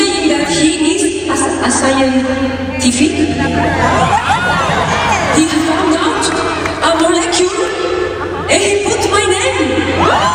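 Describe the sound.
Concert audience in Boston, a loud, continuous roar of crowd noise with scattered shouts, whoops and laughter, and voices chattering throughout.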